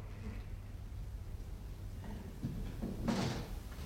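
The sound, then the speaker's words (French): A window is being closed with a soft sliding rustle that swells into a faint thud near the end, quiet over a steady low background hum. “Je vais fermer la fenêtre pour ne pas laisser perdre cette bonne odeur.”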